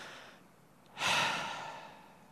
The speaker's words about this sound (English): The first thing we can do is we can breathe. Take a deep breath.